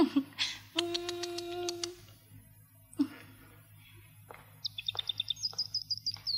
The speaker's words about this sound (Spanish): ¿Cómo está mi pajarito? Qué cómodo estás en tu jaulita.